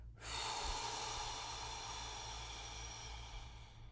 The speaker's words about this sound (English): So take a normal breath in and breathe all the air out of your mouth.